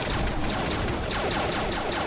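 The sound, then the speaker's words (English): A needle launcher fires in a video game, a rapid string of many quick shots in an even rhythm, loud and dense throughout. “Come down with a needle launcher shooting.”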